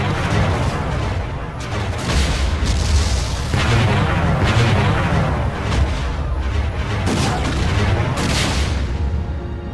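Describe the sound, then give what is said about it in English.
Ships firing weapons at a station make a dense, continuous barrage of heavy booms and blasts. Many loud detonations overlap into a sustained rumbling roar. “All ships, fire on the station!”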